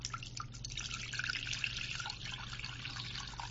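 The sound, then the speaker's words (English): Water pours into a bowl as a faint, steady trickle with soft dripping splashes, running continuously over a low constant hum. “And then in this bowl, we're going to put some water.”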